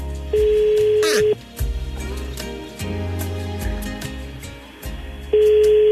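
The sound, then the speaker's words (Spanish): Telephone call tones while placing a call: a steady electronic tone sounds at the start, breaks off, and returns near the end, with busy mixed sound and low humming between the two tones. “Vamos a ver qué pasa, a ver si nos contesta Alvarito.”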